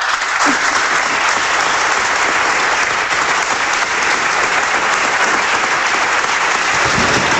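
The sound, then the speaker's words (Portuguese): Vigorous applause from a parliamentary party's benches, a dense, steady roar of many hands clapping at an even loudness for the whole stretch, with no talk over it. “Mais uma vez, aplausos vigorosos por parte do Partido Socialista.”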